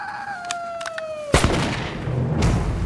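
A single sharp gunshot in an audio drama cracks out suddenly after a sustained falling tone, then trails off into a rough, decaying noise.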